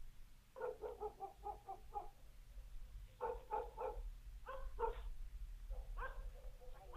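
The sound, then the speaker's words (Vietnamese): Several dogs bark at the far end of a village, giving many quick, yapping barks in clusters separated by brief pauses, fairly faint over a low background rumble. “gã bỗng nhiên nghe tiếng chó sủa ở cuối làng. Tiếng chó cắn ông ổng vang lên.”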